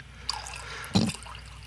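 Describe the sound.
Liquid pouring into coffee gives a brief wet splash that rises out of a quiet background for a fraction of a second, with a faint earlier trickle before it.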